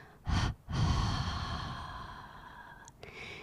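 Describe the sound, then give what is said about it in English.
Breathing from a guided relaxation exercise: a quick, airy inhale, a brief pause, then a long, steady exhale that slowly softens over several seconds. “Last time, inhale, hold and exhale.”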